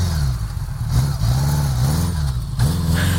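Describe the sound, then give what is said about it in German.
Gold Wing heavy touring motorcycle engine running, a loud, low throbbing rumble that rises in a few revving blips and settles back between them. “Kenner, erkennen Sie am Knatterton? Das ist eine Goldwingen. Ein schweres, dickes Reisemotorrad, oft eine üppig bestückte Maschine mit Koffern für einiges an Gepäck.”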